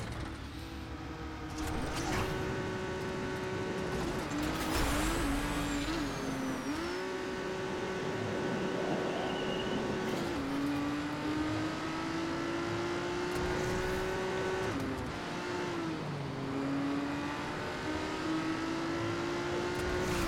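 Racing car engine in the video game Trackmania, a sustained droning whine whose pitch climbs steadily and drops back several times across twenty seconds, like repeated gear changes, with no talk over it.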